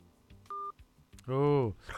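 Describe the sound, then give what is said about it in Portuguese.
A telephone keypad gives a single short, steady dialing tone while a caller is being rung, followed by a brief voiced sound. “Vamos lá falar com ela. Vamos ligar para a Ariclene. Vamos ligar para a Ariclene.”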